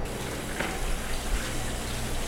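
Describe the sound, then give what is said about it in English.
Hot tap water runs over an ice cream scooper to warm it, a steady, soft hiss of flowing water that holds at an even level throughout. “So I'm getting my scooper hot in hot water. Make it easier to scoop.”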